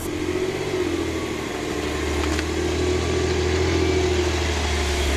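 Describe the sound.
A car engine drones steadily as it drives slow laps on a race circuit, a medium, even hum with slight wavering in pitch and no voices.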